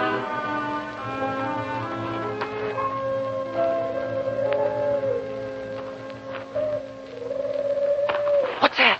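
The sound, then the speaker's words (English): Howling wind at a graveyard, a moaning, tonal wail that wavers and swoops in pitch above a low steady drone, sustained throughout with no voices. “The wind? Might be the spirits of the dead complaining of being disturbed.”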